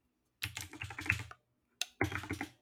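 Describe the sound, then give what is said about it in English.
Rapid typing on a computer keyboard in two bursts of quick, clicky keystrokes, the first about a second long and the second shorter after a brief pause. “I just typed in level 2 into level 2.”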